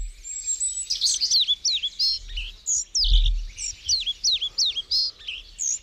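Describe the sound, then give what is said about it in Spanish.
A European pied flycatcher, a cavity-nesting bird, calls in many short, high, sweeping chirps and whistled notes in quick irregular succession, with a faint low rumble beneath. “Esto es un papamoscas cerrillo que hace su nido de forma troglodita.”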